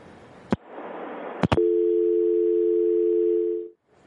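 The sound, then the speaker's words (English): Telephone dial tone after a caller's line drops: a couple of sharp clicks over faint line hiss, then a loud, steady, unbroken tone holds for about two seconds before cutting off to silence. “we just lost our caller”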